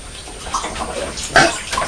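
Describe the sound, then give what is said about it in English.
Water splashes and sloshes continuously as dishes are washed up, with a steady churning texture and a louder splash near the end. “Is Mummy doing some washing up?”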